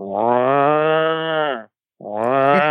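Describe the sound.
A human voice imitates cattle in a trailer at a truck stop, giving two loud, low, drawn-out moos. The first moo is long and sustained, then after a short pause a second moo begins and is cut off.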